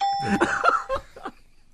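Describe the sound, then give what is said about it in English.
A correct-answer bell effect rings out as a bright ding-dong chime of a few quick tones, with a short ringing tail that fades fast. “Hey, where's the correct answer bell”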